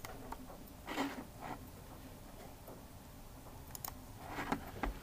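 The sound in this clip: Faint keyboard typing as a guest login name is entered in capital letters with no password, a few scattered soft keystrokes with short bursts of clicks separated by quiet gaps.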